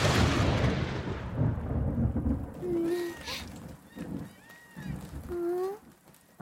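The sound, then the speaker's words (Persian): Light rain drizzle makes a steady, soft hiss that thins after the first couple of seconds, with a few brief tonal sounds rising over the quieter patter later on. “نگران نباش ویفو، فقط یکم نم بارونه، احتمالا قطع بشه.”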